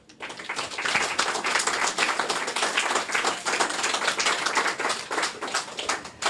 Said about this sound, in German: Aber erstmal großen Applaus.